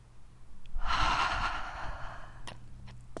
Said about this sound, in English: Now inhale. Double inhale up.